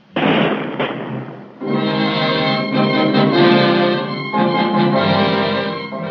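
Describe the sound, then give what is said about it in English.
Rifle volley from a firing squad at a wartime French execution of a traitor: one loud, sharp burst at the start that rings on briefly, followed by sustained dramatic music. “A bandage is placed over Bolo's eyes, and as it is tied, he says, Don't tie it so tightly. Ready! Aim! Fire!”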